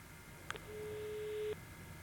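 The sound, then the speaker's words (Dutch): Ringing tone on an outgoing phone call: after a faint click, a single low, steady beep sounds for about a second, then stops against quiet line hiss. “Hij gaat over, dat is alvast een goed teken.”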